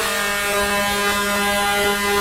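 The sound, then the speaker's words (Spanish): A vehicle horn gives one long, unbroken honk: a loud, steady buzzing tone held for the whole two seconds, alone with no voices. “Vea, a mí me gusta, por ejemplo, este pito, vea. Este pito me encanta.”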